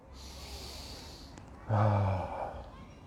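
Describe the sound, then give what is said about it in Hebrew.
Breathing out during a breathing exercise: a faint, airy breath gives way to a louder, voiced exhale with a low, humming tone that lingers and then eases off. “ונוציא את האוויר”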